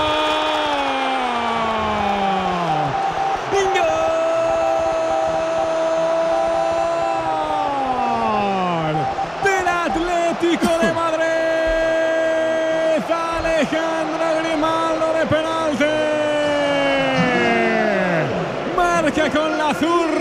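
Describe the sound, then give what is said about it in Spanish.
A stadium crowd roars after a penalty goal in a Madrid derby against Real Madrid at the Metropolitano. A dense, loud, sustained roar runs throughout, with excited commentary over it. “Pero iba bien colocado con la potencia necesaria para batir la red del Real Madrid, para ponerse por delante en el derbi con lo que cuesta, celebrándolo ahora con la grada que estalla”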